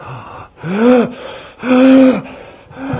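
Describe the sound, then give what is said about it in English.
A voice imitates a person fighting for breath. Two long, strained, voiced gasps, each rising and then falling in pitch, sound alone between quieter breathy pauses. “You ever heard a person fighting for their breath? Trying to get air?”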